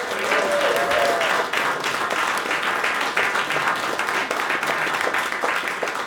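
An audience applauds a singer after her song with dense, steady clapping that stays at an even level for about six seconds.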